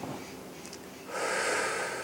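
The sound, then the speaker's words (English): A deep breath in and out during a guided meditation: a quiet, soft breath is followed by a longer, louder rushing exhale that holds steady to the end. “Take a deep breath in and let it all out.”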